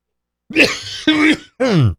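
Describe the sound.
Three harsh coughs from a person with a cold, short rasping bursts evenly spaced, the last one more voiced and throaty, heard alone without talk.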